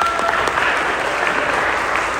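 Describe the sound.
Audience applause welcomes a speaker: dense, even clapping from many hands, steady and loud from start to end with no voices on top.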